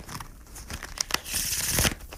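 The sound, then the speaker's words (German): Paper is unrolled with a continuous dry crinkling rustle, broken by a few sharp crackles, growing fuller and louder toward the end. “Nina rollt das Papier auseinander.”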